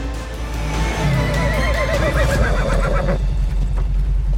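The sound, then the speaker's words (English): Horses running over sand, water and rocks with riders aboard, a dense, steady rush of galloping and movement with a high whinny rising over it. “The horses keep running.”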